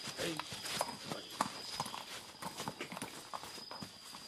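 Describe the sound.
A horse's hooves clip-clop at an even walking pace, many faint steps in a steady rhythm over soft background noise.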